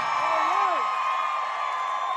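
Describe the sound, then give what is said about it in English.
A crowd cheers for the governor at a Hurricane Ian benefit concert for Florida, a sustained, loud roar of voices with a rising whoop or two near the start. “Ron DeSantis gets a huge round of applause.”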